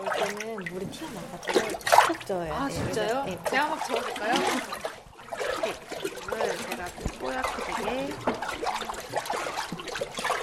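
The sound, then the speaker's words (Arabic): Water splashes and sloshes as hanji paper pulp is stirred hard with a flat paddle in a wooden vat, giving irregular wet bursts mixed with people talking. “이때는 물이 튀어나가죠.”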